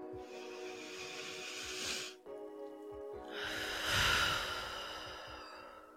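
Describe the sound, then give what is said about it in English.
A deep breath comes as two long, airy rushes of breath, the first about two seconds long, then after a brief gap a longer and slightly louder one. A soft steady tone sits underneath, with no talking. “So as always, let's take a deep breath.”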